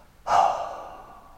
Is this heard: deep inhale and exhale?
yes